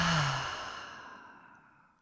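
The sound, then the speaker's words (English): A single long open-mouth exhale after a deep breath, soft and breathy, fading gradually over about two seconds with nothing else heard. “So a full inhale in through the nose. Open mouth, exhale.”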